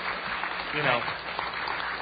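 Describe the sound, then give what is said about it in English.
Applause from an audience at a technology policy discussion, a steady, muffled patter of clapping holding at an even level throughout. “I think the man deserves a round of applause for being just,”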